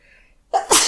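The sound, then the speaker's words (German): A single sneeze: a faint intake of breath, then a sudden loud burst that ends in a breathy hiss. “Gesundheit, ne? Richte ich mal Gesundheit.”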